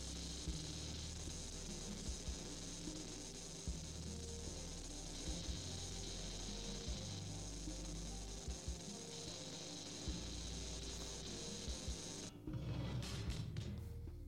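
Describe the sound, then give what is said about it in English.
Grinding, buzzing noise from a metal cutter or welding machine holds at a steady, loud level with scraping texture. Near the end it breaks into rougher crackling bursts. “Welding. It's a metal cutter.”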